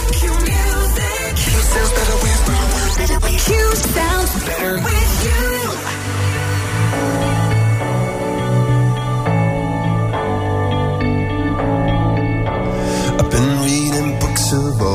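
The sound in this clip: A pop song plays loudly and without pause. It is a collaboration between a British rock band and an electronic DJ duo, built on a steady beat with layered synth chords and bass.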